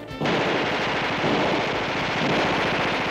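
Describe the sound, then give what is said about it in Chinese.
Dense gunfire from many guns firing at once: a loud, continuous rattle of rapid shots that starts abruptly and keeps going without a break. “外面无数支枪一起开火，”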